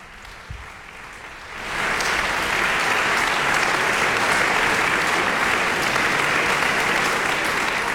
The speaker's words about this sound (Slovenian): Poslušalci v polni dvorani Union v Mariboru še navdušeno ploskajo, morda bomo dočakali še dodatek, počakajmo.